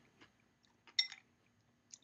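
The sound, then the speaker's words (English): Crunching on a snack eaten from a bowl: a few short, crisp bites at uneven intervals, the loudest cluster near the middle, with no talking. “I just want to kind of keep crunching away here.”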